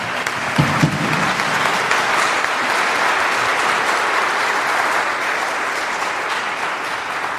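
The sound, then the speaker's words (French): A church audience applauds with dense, steady clapping that holds at an even level from start to finish. “Est-ce qu'on peut acclamer pour notre Seigneur?”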